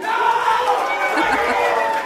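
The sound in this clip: The studio audience of a children's show called Kakadu cheers and shouts together in a dense, continuous burst of many voices.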